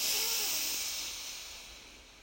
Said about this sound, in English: And one more breath in, breathe in